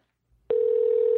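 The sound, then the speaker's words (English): Telephone line tone as a call is dialed out to a caller: after half a second of near silence, a loud, steady, mid-pitched tone starts abruptly and holds unbroken to the end. “We're going to call Ashley right now, and she's our last caller of the night.”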